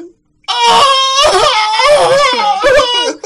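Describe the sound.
A voice imitating a man wailing in a bar: after a brief pause, loud, high, quavering sobbing cries rise and fall in several long drawn-out bursts, alone and without talk.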